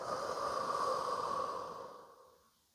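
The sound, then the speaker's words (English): Slow, deep breathing during a guided visualization exercise: one long, airy breath holds steady, then fades out toward the end, with no talking. “I want you to breathe in and out.”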